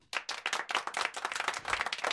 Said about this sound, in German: Das soll nicht, nicht die Qualität deines Textes schmälern. Also später Stunde nur der kleine Applaus.